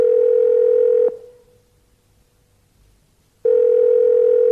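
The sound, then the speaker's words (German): Telephone ringback tone while calling a mobile phone: two steady, single-pitched tone bursts separated by a long silent gap. The first burst is cut off at the start, and no voices are heard. “Freizeichen.”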